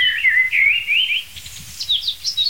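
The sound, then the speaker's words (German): A blackbird sings from a free-standing oak tree at first light in rich, fluting whistled phrases that break into higher, quicker twittering notes, alone over a faint low background rustle. “Amsel von ihrer virtuosesten Seite.”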